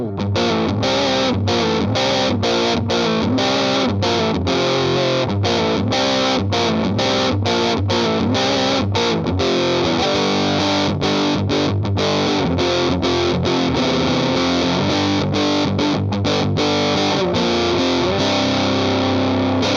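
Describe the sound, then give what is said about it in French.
An electric guitar riff played through a Dogstortion 2 distortion pedal, thick, loud and saturated throughout. The chugging rhythm is cut by many short, sharp stops. “Et maintenant, on va passer sur la Dogstortion 2 avec le même riff que tout à l'heure.”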